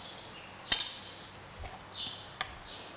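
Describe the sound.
Utensils clink lightly against a bowl as an avocado salad with toasted sesame seeds is gently tossed. A few sharp, bright chinks sound, spaced apart, over a quiet background.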